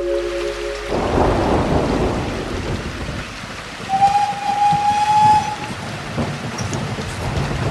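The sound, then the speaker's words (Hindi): A night thunderstorm with heavy rain at a railway station makes a dense, steady roar with deep rumbling swells. A thin, high tone rises briefly out of it midway. “इस आंधी तूफान में”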